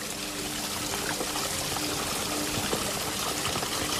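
Small waterfalls splash and trickle in a forest among ferns, trees and moss, making a steady, full, continuous rush of water with no voices.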